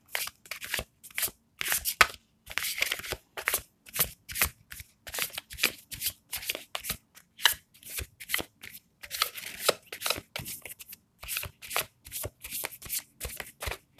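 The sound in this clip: Tarot cards are shuffled over and over in quick riffling bursts, a crisp papery flutter that repeats many times in an uneven rhythm with short pauses between strokes. No voices.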